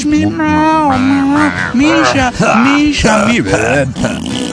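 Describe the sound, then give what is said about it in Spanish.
A person makes wordless coaxing noises to call a cat, a voice imitating calls the animal might answer. The loud vocal sounds slide and waver up and down in pitch, broken into several short bursts. “haciendo ruidos para llamarlas, esos ruidos pendejos que hace el humano, pensando que el gato,”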